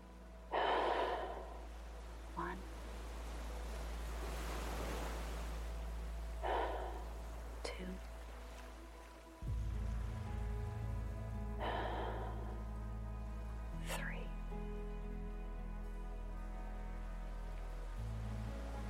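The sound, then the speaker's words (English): Slow, deep human breaths, each a soft rushing inhale or exhale, come in a few separate bursts over a steady low hum and a faint sustained tone. “As we do each episode, we are going to take 3 deep breaths.”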